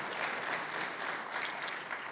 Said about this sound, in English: Yeah, you can clap for them.